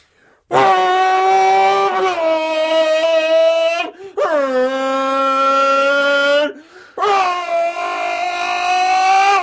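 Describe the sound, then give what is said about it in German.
A car engine runs loudly as a strong, buzzing harmonic drone in three long stretches separated by short breaks. Its pitch dips briefly at the start of the later stretches. “da stehe ich mehr oder weniger noch gar nicht am Gas, das ist Standgas. Kannst du den Motor mal länger laufen lassen, das klingt total cool.”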